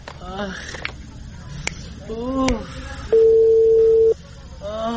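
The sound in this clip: A telephone tone sounds as a call is dialed: one steady, even beep lasting about a second, set between stretches of talking voices.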